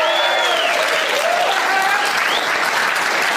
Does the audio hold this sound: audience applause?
yes